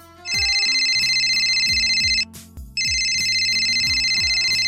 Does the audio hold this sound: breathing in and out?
no